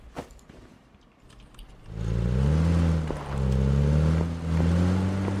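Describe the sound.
A car engine drives in the video game PUBG. After a quieter, clattery opening, a loud droning engine hum takes over and holds steady, its pitch wavering slightly as the vehicle moves.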